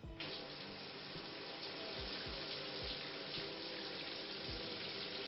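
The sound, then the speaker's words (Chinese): Shower water running in a steady, faint hiss, continuous throughout, with a few soft low thumps scattered through it. “好，我去洗澡，那你在床上乖乖等着我。”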